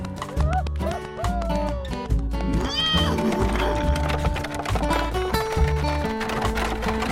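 Horse hooves clip-clopping as a rider rides away with a highwayman, a steady trotting rhythm mixed into loud music that plays throughout.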